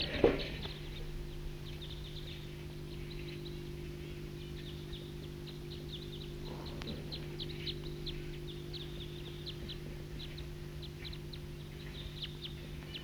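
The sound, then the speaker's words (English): A wild bird calls with faint, high chirps repeated throughout, set over a steady low hum. “Wild bird.”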